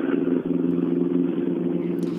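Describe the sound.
An Opel Ascona D rally car passing on a rally stage, its engine a steady, loud droning roar with a low, buzzing tone that holds nearly constant throughout.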